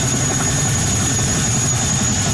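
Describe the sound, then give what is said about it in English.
A National Guard helicopter delivering troops and supplies in Hawaii ahead of a hurricane gives a steady, loud, low engine drone, constant throughout with a thin high whine above it. “A National Guard helicopter is delivering troops and supplies to the region.”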